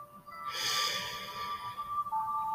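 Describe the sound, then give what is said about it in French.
Someone inhales deeply through the nose in one long, breathy intake that swells and then fades over about a second, with faint steady tones underneath. “Allez-y. Inspirez par le nez.”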